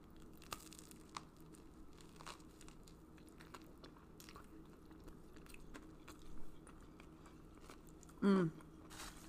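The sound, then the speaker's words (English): A single loud crunchy bite into a toasted bread sandwich filled with shredded, barbecue-sauced king oyster mushroom and pickled vegetables comes near the end, after mostly quiet moments with a faint softer sound shortly before. “I added barbecue sauce to the pulled pork, aka the king oyster mushroom, shredded, and now we're going to give it a little taste on a toasted two pieces of bread.”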